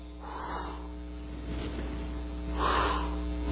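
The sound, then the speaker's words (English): A group of people exhales breath onto their raised hands, producing two soft, breathy bursts of air, the second slightly stronger, over a steady low electrical hum. “Do you feel that? You feel something hitting your hand? Check this out. That's your breath.”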